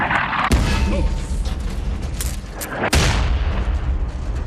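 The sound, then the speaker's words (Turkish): A thrown bomb explodes with two sharp, loud bangs spaced a couple of seconds apart, set against a dense, continuous rumbling din. “bomba atar.”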